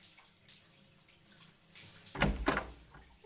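Shower water runs as a faint, steady hiss that swells into a few loud, splashing bursts of spray toward the end.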